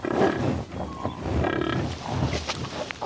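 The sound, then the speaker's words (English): Low grunting and bellowing from a herd of American bison on open prairie, a continuous rough, rumbling mass of animal calls that holds steady for a few seconds. “American bison once covered this region in herds so large they blackened the prairie as far as eyes could see.”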